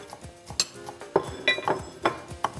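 Cutlery clinking as a knife cuts through cooked lamb on a plate in a kitchen: many sharp, bright metallic clicks and scrapes in an irregular rhythm, with no talk.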